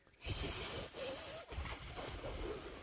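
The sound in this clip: Breath blown hard through tightly pursed lips in a failed attempt to whistle gives a breathy, hissing rush with a thin high edge and no clear tone, pushed out in about three bursts with brief pauses.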